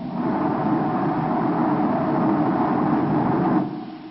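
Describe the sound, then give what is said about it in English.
Spaceship rocket motors firing in the radio drama Journey Into Space, a steady loud roaring rumble that holds evenly, then drops away near the end. “Turn complete. 180 degrees. Fire both motors. Now.”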